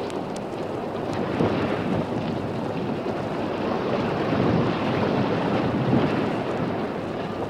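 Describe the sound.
Rain and wind from a storm in a film scene make a steady, dense, hissing rush that stays loud and even throughout, with no voices.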